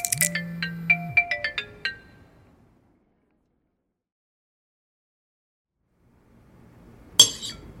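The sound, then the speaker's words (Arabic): A phone's ringtone for an incoming call plays a short, bright chiming melody, then falls silent. A single sharp clink sounds a few seconds later. “شوف الحلال هاي الاستاذ زياد عم يتصل”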